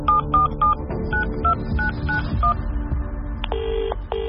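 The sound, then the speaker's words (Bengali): Touch-tone dialing on a telephone as someone at home calls a friend. A quick, even series of short keypad beeps is followed by a steadier electronic ringing tone. “বাইরের জামা কাপড় পরেই সোফায় বসে শটান প্রণয়কে phone.”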